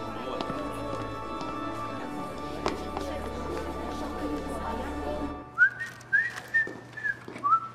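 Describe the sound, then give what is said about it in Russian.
Whistling by a person, heard as a quick run of about five short, bright whistled notes that follow several seconds of low background rumble and clutter. “Не свисти, денег не будет.”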